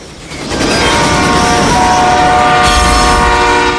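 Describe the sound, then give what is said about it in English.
An express train clatters past at speed: a loud, sustained rumble and rattle with steady horn-like tones running over it and a sharp burst of hiss near the end. “Art hurls himself at Simon, pulling him out of the train's path as it clatters past at speed.”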